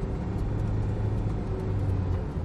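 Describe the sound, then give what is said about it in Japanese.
A car drives along an expressway about 50 km from Toyama through roadworks where the road narrows to one lane, producing a continuous low rumble of engine and tyre noise that stays steady throughout, with no voices. “ただいま富山まで50キロのところを走っておりますが、また一車線になっちゃうよ。”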